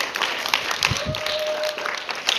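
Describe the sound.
Audience applause welcoming a guest, a scattered burst of clapping with a few low thumps and a brief steady tone running through the middle.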